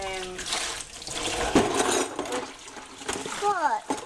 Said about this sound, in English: So I'm going to run the basin.